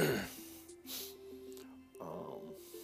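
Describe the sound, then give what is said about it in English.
A long, drawn-out yawn with a breathy, voiced moan that wavers and then swells again near the end, heard on its own without other talk. “bear with me, I apologize for yawning,”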